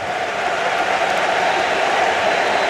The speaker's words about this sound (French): Et vous entendez le public. Et oui. Les supporters congolais sont là aussi pour pousser leur couleur.